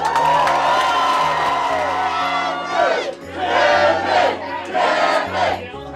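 A crowd at the Backyard Ale House in Scranton, Pennsylvania, cheers and whoops loudly and without a break, the noise surging in waves over a low steady drone.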